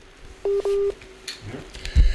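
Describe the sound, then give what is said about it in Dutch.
Telephone keypad dialing to call someone back after a dropped call: two steady, fairly loud electronic tones pressed in quick succession, followed by faint rustles and clicks. “we proberen hem gewoon nog eens terug te bellen”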